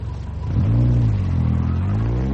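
A car engine rumbles low and steady, then revs up sharply at about half a second as the car drives off, its drone staying loud and even to the end with no voices.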